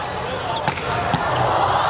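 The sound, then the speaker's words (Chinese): A volleyball serve struck for an ace in a match involving the USA team: two sharp ball impacts stand out over steady background noise and voices. “哇，哈内斯发球直接得分，这一传直接接上了看台，也帮助美国队将比分追到了18-0。”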